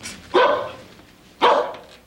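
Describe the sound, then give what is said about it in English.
A dog barks twice, about a second apart. Each bark is sharp and loud and trails off briefly, with no voices. “brought a dog home from the supermarket”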